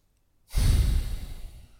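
A single deep breath during a breathing exercise begins after a short silence as a loud, airy rush, then gradually thins and fades over about a second.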